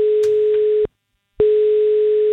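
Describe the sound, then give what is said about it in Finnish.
Telephone line tone during a call to a contest winner: a steady, single-pitch electronic tone sounds, stops for about half a second, then resumes at the same pitch and loudness. There is no talk over it. “Ja nyt on aika soittaa seuraavalle kisan voittajalle.”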